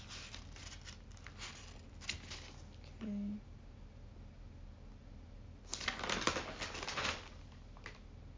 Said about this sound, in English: Sorry, bear with me. I'm just looking through my notes.